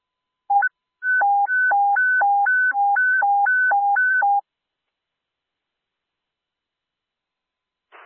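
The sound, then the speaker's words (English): A two-tone alert from an airport communications center's daily dispatch sound test: a brief beep, then a loud, steady hi-lo alternation of two pitches lasting about three seconds, followed by silence and a faint burst of static at the end. “All units, stand by for the daily sound test.”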